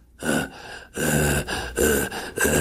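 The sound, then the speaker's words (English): A man imitates labored breathing with his voice: several harsh, raspy gasping breaths in quick succession, loud and strained, with no talk. “I thought, well, you know, the guy's got breathing issues”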